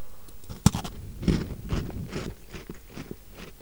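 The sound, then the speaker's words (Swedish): Crunchy chewing, like someone eating a cookie: one sharp crunch, then a few softer munching bites, fairly loud and alone. “Hallå, det där låter som en kaka.”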